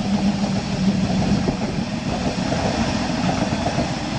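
Train pulling out from track 1 at a station: a steady, dense rumble of rolling stock that holds an even loudness throughout, with no voices.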